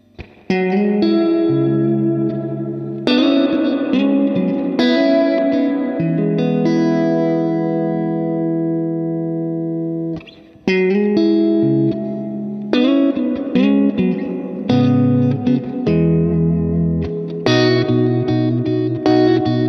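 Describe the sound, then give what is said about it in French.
An electric guitar plays through an F-Type amplifier with its reverb turned up to maximum. Chords and single notes ring out in washy, long-sustaining tails, in several phrases with one short pause midway and no talking. “Ça marche le fou avec la reverb comme ça. Je peux même vous mettre la reverb au taquet.”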